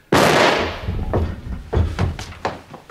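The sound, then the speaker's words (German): A gunshot rings out in a German-language crime radio drama: one loud, sharp bang with a lingering decay, followed by a few softer, scattered thuds and knocks. “Der Schuss hatte den Inspektor um Haaresbreite verfehlt.”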